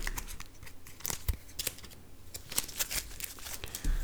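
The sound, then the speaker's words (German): Playing cards are shuffled into an encounter deck during a tabletop card game, making crisp papery rustles and many quick snapping clicks. Fairly faint and with no talking. “Und mischen das Ganze ins Begegnungsdeck.”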